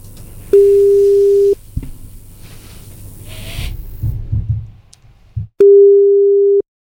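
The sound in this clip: Telephone call tones ring out as a radio show calls a listener: two long, steady, mid-pitched beeps separated by a quieter stretch of crackly line noise.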